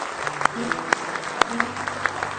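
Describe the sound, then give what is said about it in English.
A church audience clapping in praise: a few sharp, evenly spaced hand claps stand out over softer clapping, with voices and sustained tones underneath. “Give Him one more hand clap of praise.”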